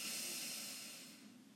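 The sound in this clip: A slow breath drawn in during a guided meditation, a faint airy hiss that starts at its strongest and tapers off over about a second and a half.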